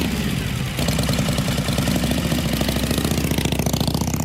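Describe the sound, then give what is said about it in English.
A Harley-Davidson motorcycle engine runs with a loud, lumpy, rhythmic throb. The pulsing beat shifts slightly early on, then settles into a steady, even idle-like pattern that continues to the end. “A Harley Davidson, the way you wanted to ride one when you were 20.”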